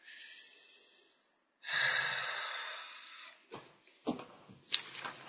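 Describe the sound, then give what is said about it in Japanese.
Deep breathing during a physical exercise routine: a long, steady inhale, then a louder, drawn-out exhale, followed by a few short, sharp noises. “はい、じゃあちょっと体操をして、はい、深呼吸。”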